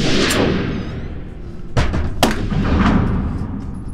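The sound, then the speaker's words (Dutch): Gunshots from someone practising shooting: a few sharp, loud cracks with thudding low ends stand out over a constant low rumbling background, two of them close together midway. “Dus dat is iemand die leert schieten.”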